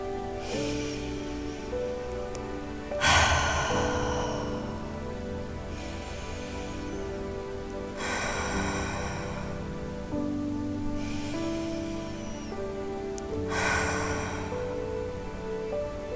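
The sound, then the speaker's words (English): Deep, slow cleansing breaths drawn in and let out during a guided meditation, about three breath cycles with louder airy inhales alternating with softer exhales over a soft, sustained music bed. “we're going to bring in some deep cleansing breaths to release all the energy from our day so far.”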